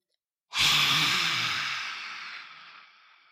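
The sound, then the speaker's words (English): A lion's breath yoga exhale, breathed out forcefully with the tongue stuck out, one long breathy hiss that starts sharply and fades gradually over about three seconds, alone with no talk. “Lion's breath is where you take a deep breath in, and when you release your breath, you stick your tongue out as far as you can and you make some noise or like a hiss sound.”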